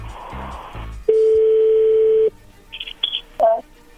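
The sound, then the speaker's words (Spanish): A telephone dials out a call: a voice speaks briefly, then a steady dial tone holds for about a second before a few short, high dialing tones follow. “vamos a llamarle a tu novia Verónica”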